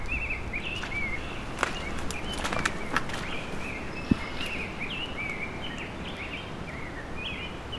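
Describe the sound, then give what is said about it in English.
A rose-breasted grosbeak sings short, bright, warbled phrases that repeat steadily throughout, over a constant rustling background with a few soft knocks and one sharp click. “This is a rose-breasted grosbeak singing. And squeaking.”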